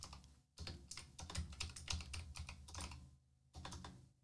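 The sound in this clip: Rapid typing on a computer keyboard: dense bursts of sharp key clicks that stop briefly near the end, then resume for a final short run. No voices.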